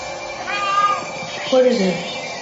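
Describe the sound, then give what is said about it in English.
A cat meows twice, a higher drawn-out call followed by a lower wavering one, over steady background noise and talk. “it's a cat.”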